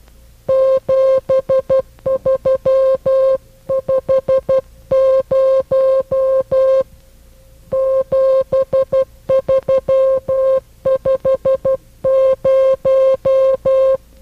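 Morse code telegraphy signal sending the number 7350: a loud, steady mid-pitched tone keyed on and off into crisp dots and dashes, grouped with short pauses between characters and heard alone.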